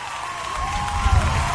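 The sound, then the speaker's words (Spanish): Right after a song, an audience claps and murmurs, a short burst of dense applause with a crowd rumble that swells toward the end. “¡Bravo! El aplauso para ellos.”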